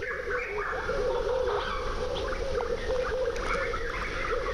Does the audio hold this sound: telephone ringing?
no